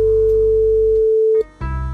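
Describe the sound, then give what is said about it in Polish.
A telephone line tone on a radio request-show call-in holds a single steady pure pitch for over a second above low music. It cuts off sharply, and the music then changes. “Teraz telefon do pani Ewy.”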